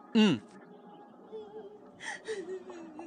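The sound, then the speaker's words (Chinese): A girl cries, starting with a sharp, loud wail that bends downward, then trails into quieter, broken whimpering sobs. “不行，是姐姐在哭，我要去看看。”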